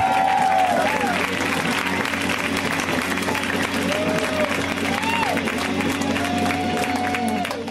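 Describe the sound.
An audience applauding and cheering for a comedian, dense, steady clapping that fills the whole stretch, with a voice over it.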